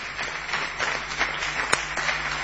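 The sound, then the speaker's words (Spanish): Audience ovation rendered as steady applause, a dense crackle of many hands clapping at moderate level with one sharper clap standing out near the end and no clear voices over it. “Son ustedes muy amables, vamos a extender la ovación para honrar al querido Patricio Barton.”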